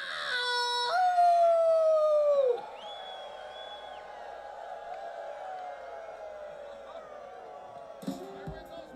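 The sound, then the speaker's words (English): A man howls like a dog, holding a long wavering note that slides down in pitch, while other voices howl along in sustained overlapping tones that carry on after his note ends. “let's, if you feel like it, howl along with this man.”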